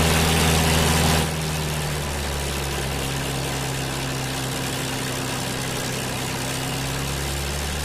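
Engine drone of a Second World War Spitfire aircraft flying veterans. The low, rumbling drone is louder for the first second, then settles into an even, sustained roar with no voices over it.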